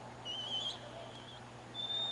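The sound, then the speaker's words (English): Faint, high-pitched chirpy whistling from someone behind home plate at a baseball game: two brief whistled phrases, the second a thin steady tone, over a low continuous ballpark hum. “And somebody's whistling.”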